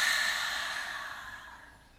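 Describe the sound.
A deep breath is exhaled during a guided breathing exercise: one long, airy outbreath that starts full and fades steadily over about two seconds.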